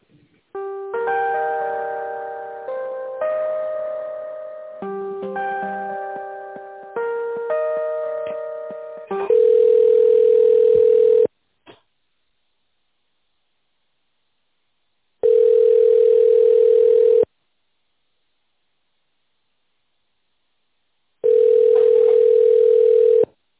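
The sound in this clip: Telephone tones play while a call is transferred: a chiming, bell-like melody runs for several seconds, then three long, steady mid-pitched beeps sound alone, separated by stretches of silence.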